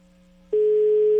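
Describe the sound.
A telephone tone heard while waiting for the call to be answered. A faint low hum comes first, then a loud, steady tone starts abruptly and holds without a break to the end.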